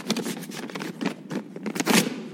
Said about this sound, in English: And then he tears the letter up. Throws it in the waste bin.